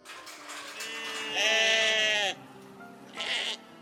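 A lamb bleats in a restaurant setting: one long, wavering, high-pitched bleat rises out of a low murmur and cuts off abruptly, followed shortly by a shorter, breathier second call. No one speaks.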